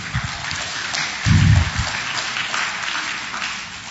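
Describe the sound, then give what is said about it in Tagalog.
Applause from a church audience praising the Lord: soft, patter-like clapping of many hands that stays fairly faint and uneven over four seconds. “Palakpakan natin ang Lord.”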